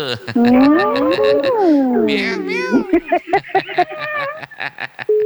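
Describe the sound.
A cat meows repeatedly, loud and alone, beginning with long drawn-out wavering cries that bend up and down in pitch, followed by a run of shorter, choppier meows.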